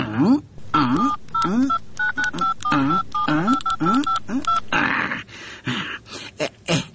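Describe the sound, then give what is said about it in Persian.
Telephone number being dialed on a keypad: many short dual-tone beeps in quick succession, interleaved with voiced sounds, followed by a noisy burst and a few more sharp clicks near the end. “تو باش که زنگ بزنم.”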